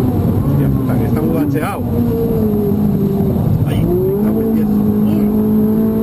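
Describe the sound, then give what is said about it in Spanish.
A Ferrari drives at about 250 km/h on the Jarama race circuit, its engine a steady, loud droning tone that shifts slightly in pitch, with voices talking over it throughout. “Fernando Alonso mete miedo a Carlos Miquel a 250 kilómetros hora con su Ferrari.”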